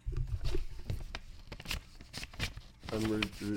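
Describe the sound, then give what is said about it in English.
Paper rustling as a Hallmark greeting card is pulled out, with several crisp crinkling and scraping bursts, then a voice speaking briefly near the end. “I'm pulling the card.”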